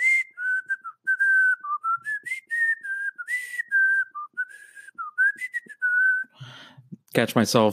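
A person whistles a Super Mario World video game tune from the Super Nintendo: a bright, steady melody of many short and held notes on a single line, with a brief burst of other noise at the very end.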